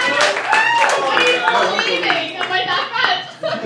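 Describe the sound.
A live audience in Dublin applauds a guest with steady, dense clapping, with voices and cheers mixed through it for the whole stretch.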